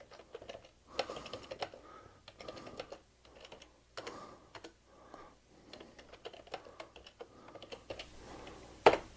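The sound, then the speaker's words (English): Computer keyboard typing while accepting code suggestions with a single keystroke and tabbing through blanks: many soft, irregular clicks in short clusters, with one sharper keystroke near the end. “I can accept the code with a single keystroke and just tab through to fill in the blanks.”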